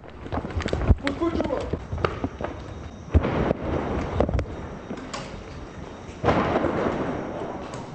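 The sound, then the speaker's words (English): Blasts of a Katyusha rocket striking an apartment building in downtown Nahariya, a few sharp loud bangs amid rumbling noise, then a sustained louder roar near the end, with people's voices present. “the sound they just heard was a Katyusha rocket that was a direct hit into an apartment building here in downtown Nahariya”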